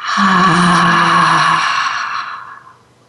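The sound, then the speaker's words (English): A relaxed breath out during a guided group meditation, voiced as a long breathy sigh with a low hum-like tone that holds steady for about two seconds before fading away. “take a deep breath in and relax out with the sound.”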